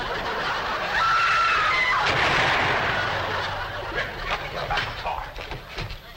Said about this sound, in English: Step aside, lady, I'll shoot it.